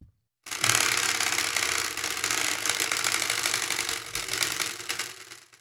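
A spinning prize wheel gives a dense, rapid mechanical clatter of clicks that runs for about five seconds, then thins and fades as the wheel slows and comes to rest.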